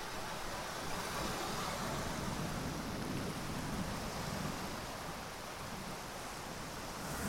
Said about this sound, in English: It's about 6 o'clock and the tide's coming in.